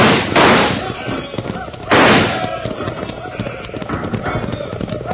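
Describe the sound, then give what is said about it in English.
Horses gallop under rifle fire, a steady clatter of hooves through the whole clip broken by two loud, sharp gunshot bursts, the second coming about one and a half seconds after the first. “Fire at will! Stay low in the saddle”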